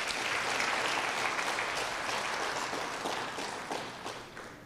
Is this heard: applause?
yes